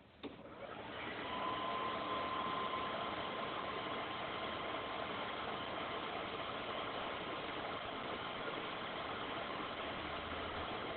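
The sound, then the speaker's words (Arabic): A printer's cooling fan whirs after the printer is switched on with its online button. A brief click opens a steady, even hum that holds unchanged throughout. “هو الآن صوت المروحة اللي بدل على أن الطابعة الآن بدأت تشتغل”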